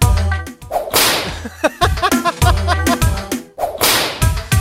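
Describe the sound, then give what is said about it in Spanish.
Sharp whip cracks punctuate an urban pop song, landing as several loud, snapping bursts over a steady beat and sung melody. “Oye, el látigo de esta canción suena como el que tiro yo, ¿no?”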